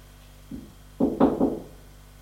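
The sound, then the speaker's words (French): Knocking on a door: one soft tap, then three firm knocks in quick succession, with quiet before and after. “On a frappé à la porte.”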